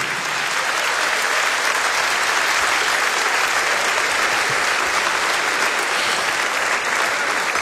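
An audience applauds an orchestra from Istria and Kvarner with loud, dense, unbroken clapping that holds level throughout.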